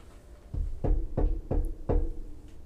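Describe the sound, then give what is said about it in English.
Knocking on a door, played as a sound effect: five firm, evenly spaced knocks with low, resonant thuds, alone without voices. “I hit the button. Wanted to knock on Estella's door.”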